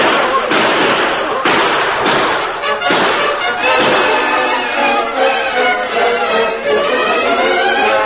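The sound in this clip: Gunfire as a posse opens fire: a string of sharp, heavy cracks in the first few seconds, followed by dense continuing noise with men's voices shouting over it.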